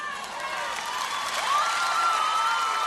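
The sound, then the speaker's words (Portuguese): Crowd applause swells steadily with cheering and whistle-like cries mixed into a dense, continuous wash of clapping. “E a outra salva de palmas.”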